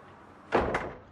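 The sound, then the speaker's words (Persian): A door opening: two quick thuds a fraction of a second apart, the first louder, then quiet. “آه درو ممنون.”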